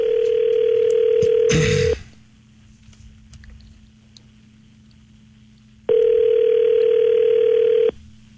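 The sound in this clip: Steady telephone dial tone while a call is being placed, heard in two long unbroken stretches of about two seconds each. A quiet gap separates them, and a brief crackling burst sits just before the first tone ends.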